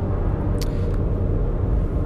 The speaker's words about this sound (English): So I'm uh, driving away from Killeen, where I left it.